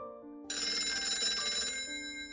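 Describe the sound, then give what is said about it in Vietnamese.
A telephone rings while work goes on in a wood workshop. A bright, tonal electronic ring starts abruptly over a quieter steady hum and holds for over a second before fading back. “Trong lúc đang làm việc thì tôi có điện thoại.”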